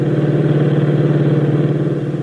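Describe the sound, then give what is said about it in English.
A sedan accelerating hard down an empty desert road, its engine a loud, steady, low roar that drones without a break. “forces the accelerator down to the floorboards, and the sedan roars down the empty desert road.”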